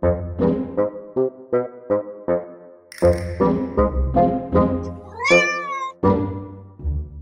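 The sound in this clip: A cat meows over and over, first in a quick run of short, clipped cries, then in longer, louder, more drawn-out meows, one of them rising in a wavering wail.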